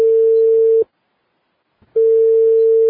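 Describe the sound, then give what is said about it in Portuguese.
Ringing tone of an outgoing telephone call being placed: two steady low tones, each just under a second long, separated by a silent gap of about a second. “Vamos ligar agora”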